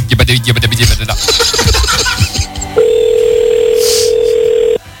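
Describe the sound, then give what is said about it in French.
A continuous telephone line tone heard while trying to place a call that won't ring through. The steady, low, unchanging hum lasts about two seconds and follows laughter and chatter. “Non, ça répond pas, on n'arrive même pas à l'appeler. Ça sonne pas, ça fait...”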